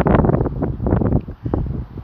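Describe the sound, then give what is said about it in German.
Outdoor wind buffets the microphone in loud, continuous low rumbling gusts that rise and fall unevenly. “nicht wundern, wenn ihr im Hintergrund Wind hört. Das liegt daran, dass ich die einzigste Stelle gefunden habe, sozusagen,”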